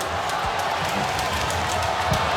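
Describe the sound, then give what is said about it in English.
Crowd noise swells at an Australian football match involving Geelong. A broad, steady roar of a large crowd fills the stadium throughout. “And the crowd coming into it now, too. Oh, yeah, they're a big crowd.”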